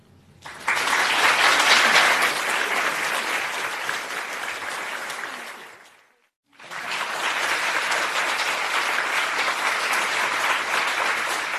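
Applause from a live audience at Wellcome Collection in London: dense, sustained clapping that breaks off briefly partway through, then resumes just as steadily.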